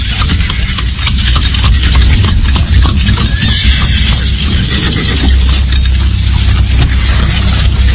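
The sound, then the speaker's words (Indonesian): Horse hooves clip-clop steadily as a horse-drawn cart rolls over a rocky road toward a royal city, with a dense, continuous rumble and clatter of wheels that stays loud throughout. “Gerobak kuda meluncur di atas jalanan berbatu.”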